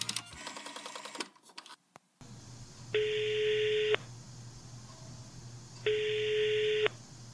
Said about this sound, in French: Super idée, on a qu'à l'appeler.